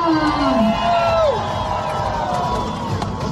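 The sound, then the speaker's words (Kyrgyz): Thousands of fans gathered in a square cheer athletes and their coaches crossing a red carpet, a loud, continuous crowd roar with a couple of shrill whoops falling in pitch near the start. “Ал эми аянтта миңдеген күйөрмандар топтолуп, спортчулар жана алардын машыктыруучулары кызыл килемден өткөндө кубаттап колдоп турушту.”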